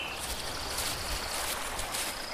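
Flowing water from a mountain stream at about 1800 metres altitude, a steady, even rushing and trickling hiss that holds at one level throughout, with no voices.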